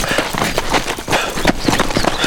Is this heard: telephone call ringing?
no